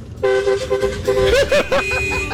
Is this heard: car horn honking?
yes